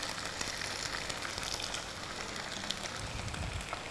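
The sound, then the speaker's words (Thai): Egg white sizzles and crackles as it fries in a little oil in a tilted pan, a dense, fairly loud hiss that stays even throughout. “โดยที่เราเอียงกระทะมาข้างหนึ่งแล้วก็ใส่น้ำมันไปนิดนึงนะคะด้านข้างแล้วก็นำไข่ขาวใส่ลงไป”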